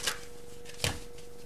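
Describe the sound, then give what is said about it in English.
A card being shuffled and drawn from a Money Tarot deck: two brief papery rustles, the second slightly heavier, over a faint steady tone and low background hiss. “Okay, so let me get one more card for you from the Money Tarot by Eugene Vinitsky.”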